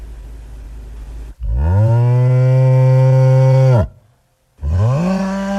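A bull lowing in deep, drawn-out calls: one long, steady moo lasting over two seconds, then after a short silence a second call begins, with low background noise before the first.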